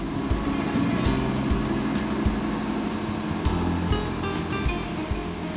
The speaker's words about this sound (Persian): در این قسمت ما تجهیزاتی همچون سی فرز و تراش سی رو داریم و این صداهایی که الان داریم میشنویم مال همین دستگاه هاست